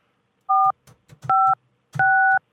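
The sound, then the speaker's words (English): Telephone keypad dialing tones while a call is transferred: three clear electronic dual-pitch beeps, the later two slightly longer, with faint clicks of button presses between them and no speech. “I'm just going to patch the phone straight through to him, okay, so you don't have to wait.”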